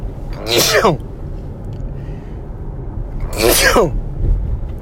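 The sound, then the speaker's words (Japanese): Two forceful sneezes from a person with apparent autumn pollen allergy, each a sharp burst with a noisy, rasping release, separated by a few seconds of quiet low background hum. “なんか秋の花粉なのか、ちょっとここ数日くしゃみが止まらないんですが”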